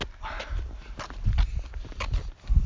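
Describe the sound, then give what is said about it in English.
Footsteps walking at an unhurried, fairly even pace: several soft thuds of treading feet, with a firmer step near the end. “All right, let's walk this way.”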